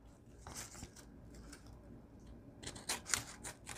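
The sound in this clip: Scissors cut through paper scraps. A few crisp snips cluster toward the end, after softer rustling and handling sounds.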